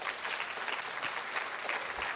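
A church audience claps their hands in a steady, continuous patter of many people at once. The sound is moderately loud and holds throughout without a break.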